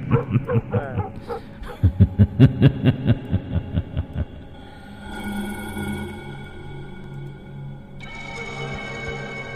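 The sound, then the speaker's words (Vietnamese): Dog barking at night at the edge of a village, a quick rhythmic run of many sharp barks, giving way to sustained, eerie droning tones. “Ở đầu xóm, tiếng chó cắn ma lại nhấm nhẳng vang lên lẫn trong cái tiếng cười ma mị.”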